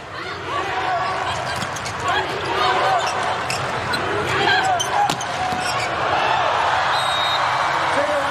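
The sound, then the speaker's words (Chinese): A volleyball bounces a few times on the court before a serve in a women's match between China and Turkey, the dull thuds set under steady crowd noise and a commentator's voice. “比赛继续，基萨尔来发球。”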